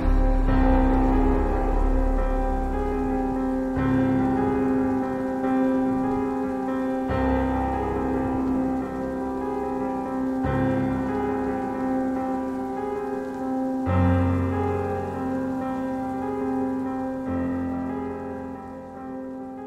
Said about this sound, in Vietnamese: Mưa đến tối vẫn chưa dừng lại, gió mỗi lúc một mạnh hơn.